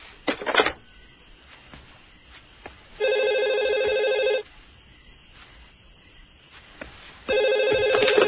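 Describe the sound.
A telephone rings in two separate bursts of bright, trilling bell tone, each about a second or more long with quiet gaps between. A few faint clicks come before the first ring.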